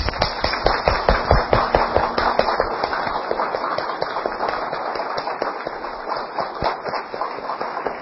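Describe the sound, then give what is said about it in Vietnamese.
Firecrackers exploding in a long, dense string of rapid, sharp cracks and pops that crowd together for the whole stretch, loud and unbroken, with no clear pauses. “pháo nổ từ trong tâm nổ ra của Đào Sơn.”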